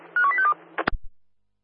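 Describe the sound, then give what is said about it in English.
Telephone keypad dialing tones: a few quick electronic beeps in rapid succession, followed by a couple of dull clunks and then silence. “You're dialing now.”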